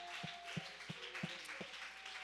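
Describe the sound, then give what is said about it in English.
Hand clapping in praise at a church service: a handful of faint, evenly spaced claps in a steady rhythm over a quiet sustained tone. “Oh, let's give the Lord a hand clap of praise tonight. Come on, let's give the Lord a hand clap of praise.”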